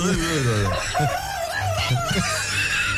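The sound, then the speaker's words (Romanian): A rooster crows in one long, loud, wavering call lasting about three seconds. The crow starts out rough and strained and steadies toward the end. “vedeți că pe final el începe bine, începe ca orice cocoș. Doar că, practic, e un fel de story of my life în acest cântec de cocoș.”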